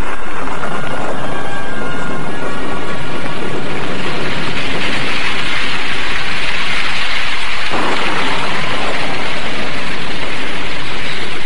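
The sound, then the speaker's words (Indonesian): Heavy rain pours down in a dense, continuous hiss that stays steady and loud through the whole stretch, with no voices. “ketika hujan turun dengan derasnya”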